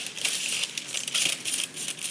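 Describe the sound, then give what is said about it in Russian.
Scissors snip a short strip of corrugated paper, making many dry, crinkly, rustling crunches in an uneven rhythm, with no voices. “Мы вырезаем из гофрированной бумаги полосочку длиной около 3 сантиметров.”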